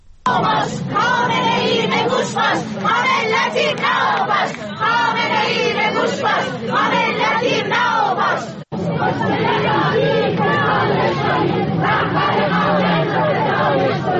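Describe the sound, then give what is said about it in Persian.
A large crowd chants anti-government slogans in Persian at a funeral for victims of a deadly incident. The loud, rhythmic mass of voices continues throughout, with one brief break partway through. “بخشی از صدای این اعتراض‌ها را الان می‌تونیم بشنویم.”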